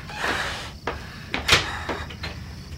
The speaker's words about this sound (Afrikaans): In die ingeboude kas, maak die laaste deur oop.